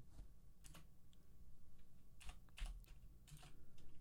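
Rapid clicking of keys on a computer keyboard comes in several short bursts of many light taps, with brief pauses between them and a faint steady hum underneath.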